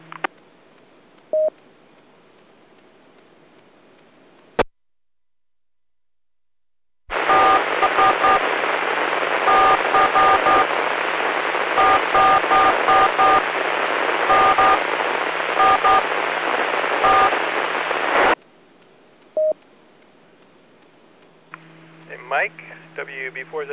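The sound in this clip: Morse code tones come over amateur radio as short, evenly spaced beeps in repeated groups above a loud band of static lasting about eleven seconds. Quieter hiss and brief clicks come before and after, and a voice starts near the end.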